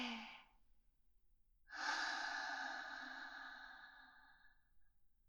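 A slow, long exhalation during a relaxation exercise. A brief breath at the start is followed by a pause, then a soft, airy outbreath that gradually fades over several seconds. No voices.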